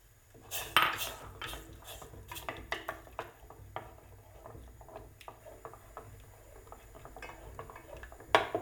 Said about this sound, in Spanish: voy a incorporar la polenta de una vez y voy a remover con una cuchara de madera